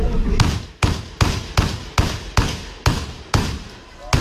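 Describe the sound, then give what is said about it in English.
Blank gunshots fired in a film ring out as a rapid, evenly spaced run of sharp, loud bangs, each a hard crack with a short decaying tail, continuing steadily throughout. “That is, see that noise? That is a blank. I'm telling you right now.”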